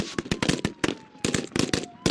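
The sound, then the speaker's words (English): Gunshots ring out during a mock terrorist kidnapping of a government official at an outdoor reviewing stand: many sharp, loud cracks fire in rapid, uneven bursts with brief gaps between volleys. “Suddenly, shots fill the air. It's a mock terrorist kidnapping of a government official.”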